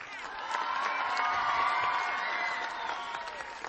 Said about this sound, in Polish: Brawa i to gorące, armia dzieci! Gorące brawa!